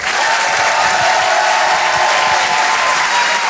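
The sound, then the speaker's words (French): Audience applause and cheering for a performer at a stand-up comedy show: dense, loud clapping mixed with whoops, sustained evenly throughout with no pause. “Je vous demande de faire un maximum de bruit, s'il vous plaît, pour Urbain.”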